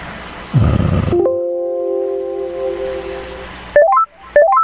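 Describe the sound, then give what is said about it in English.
Telephone dialing tones: a steady tone holds for a couple of seconds, then quick bursts of stepped keypad tones follow near the end. “Okay, we're dialing her now.”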